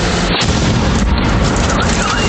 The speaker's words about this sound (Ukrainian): А це вже FPV вгатив біля муніципального автобуса просто у середмісті.